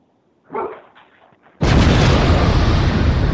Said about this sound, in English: There go that bomb you're looking for there, JB. That's that bomb right there.